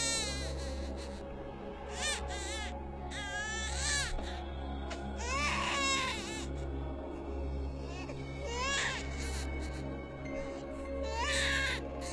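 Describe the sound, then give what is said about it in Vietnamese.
Shrill crying of a young child in the courtyard of an ancestral hall: repeated piercing, wavering wails in several bursts, loud over a steady low hum. “Bỗng nhiên có tiếng khóc của trẻ con ré lên. Tiếng khóc nó như xoáy vào màng nhĩ ghê rợn.”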